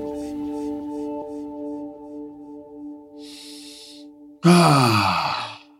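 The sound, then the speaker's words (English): A deep breath: a soft airy inhale, then a loud, long sighing exhale that trails off, over a steady low tonal drone. “You see that? The fullness of life. That's what that is when you take a deep breath like that.”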